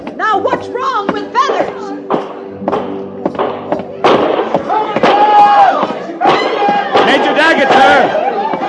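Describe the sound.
Gunshots during an attack on a frontier stockade in a Western drama: many sharp, irregular bangs and thuds over shouting voices and crowd noise.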